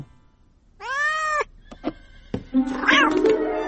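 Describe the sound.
A cat gives one long, clear meow, then a few soft thuds and a rougher, scratchier cat cry.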